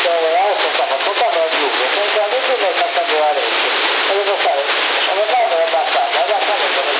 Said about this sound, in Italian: Togli l'eco, tutto l'eco togli.